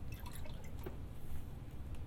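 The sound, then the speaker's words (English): Milk poured into a small frothing mug, a steady, continuous liquid pour lasting about two seconds at an even level, with no voices. “So I'm going to pour the milk into my little frothing mug.”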